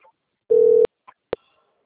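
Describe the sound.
Telephone ringing at a workplace before the call is answered: a single short, loud, steady electronic ring tone, then two brief faint clicks.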